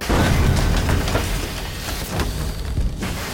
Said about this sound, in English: The cart tore through the tunnel wall like a bullet through drywall. The crash didn't sound mechanical. It sounded violent, brutal.